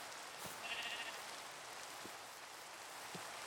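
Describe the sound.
A sheep in a video game gives one faint, brief bleat early on. A soft, steady hiss of rain carries through, with a few light drop taps.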